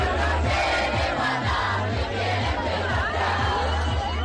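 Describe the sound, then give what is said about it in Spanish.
Hundreds of young people partying on a university residence hall rooftop in Valencia: a loud, dense crowd of shouts and chatter over a steady, thumping low bass beat that runs through the whole stretch. “Este es el sonido de cientos de jóvenes de juerga en la azotea del Colegio Mayor Galileo Galilei, en el campus de la Politécnica de Valencia.”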